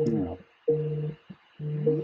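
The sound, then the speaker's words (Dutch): Phone ringing with an incoming call: three bursts of a tonal ringtone sound in a regular on-off rhythm, with clear layered tones. “Oh, ik word nu al gebeld, terwijl het pas over acht minuten zou zijn.”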